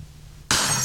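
Glass breaking in one sudden, loud, bright crash after a quiet stretch, with the shattering noise ringing on steadily to the end.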